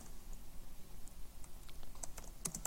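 Rapid, quiet keystrokes on a computer keyboard as C code is typed, many light irregular clicks forming a steady patter with no voices.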